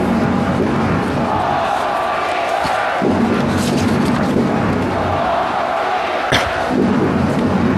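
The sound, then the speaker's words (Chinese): Football fans roar and chant loudly for the home team Honghe during rain, a dense, continuous wall of crowd voices broken by a couple of dull thuds. “球迷也是大声的在呼喊红河必胜啊，为主队在加油。”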